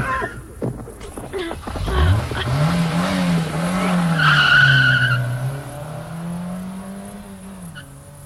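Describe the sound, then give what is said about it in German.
A car driving through a forest, its engine note rising and then holding steady and loud, with a sharp tire squeal from the skid partway through before the sound gradually fades. “Huch, kommt ein Auto? Ist er verrückt geboren? Der darf doch hier überhaupt nicht fahren im Wald.”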